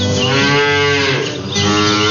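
A cow moos loudly at milking time in one long, sustained, deep call with a brief dip partway through. It sounds alone, with no voices.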